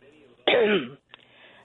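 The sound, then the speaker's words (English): A phone caller clears phlegm from the throat in one loud, rough burst of about half a second, followed by a brief faint click amid low background sound. “I hate that when it... you know, they got that phlegm in their throat.”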